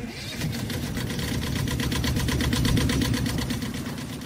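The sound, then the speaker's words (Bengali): Motorboat engine as a hired boat leaves passengers on sea rocks at an island: a steady, throbbing low drone with a fast rhythmic pulse, holding fairly even loudness throughout. “টাকাটা গুনে ওদের পাথরের ওপর তুলে দিয়ে driver boat নিয়ে ফিরে গেল।”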